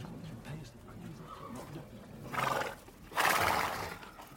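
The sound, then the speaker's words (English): A horse neighs in a warm stable that houses about twenty horses. After a low, murmuring background, two loud, breathy whinny bursts come close together in the last two seconds. “Someone said they're bringing down a new horse and they have to go gently.”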